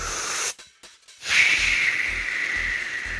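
An inhale drawn from an e-cigarette gives a breathy, airy hiss. It stops for a moment, then returns as a longer, steady hiss over a soft, low pulsing beat.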